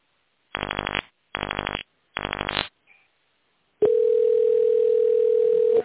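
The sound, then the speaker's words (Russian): Telephone touch-tone dialing in tone mode after an automated phone menu: three short buzzy key tones at an even pace, then a long steady line tone that holds for about two seconds. “Если вам известен номер абонента, наберите его в тоновом режиме.”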